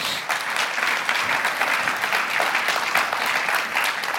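Audience applause welcoming two team members up to the stage: dense, steady clapping that holds at an even loudness for about four seconds without a break.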